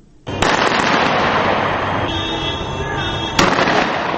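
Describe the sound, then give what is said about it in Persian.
Gunfire in Tripoli, Libya: a sudden loud onset of dense crackling shots that continues as a sustained barrage, with a sharper loud crack near the end. “این صدای فیر تفنگ در ترابلس پایتخت لیبیا می باشد.”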